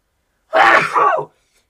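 A single loud sneeze, a quick two-part burst of breathy noise lasting under a second, alone against silence.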